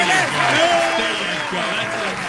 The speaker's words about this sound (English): We need some applause for you for your great show yesterday, your debut. It's a little that applause is a little weak. Guys, try it again. There you go.